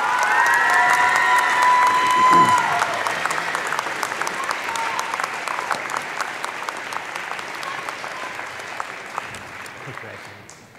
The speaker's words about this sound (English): Congratulations, please give it up for Kelsey Clausen.